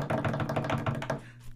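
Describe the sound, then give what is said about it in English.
A drum roll tapped out by hand on a hard surface: a fast, even run of quick knocks lasting about a second, then stopping abruptly. “Ready? Drum roll, please.”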